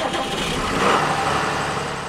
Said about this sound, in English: It's sort of like it has two keys. There's one key that starts the engine.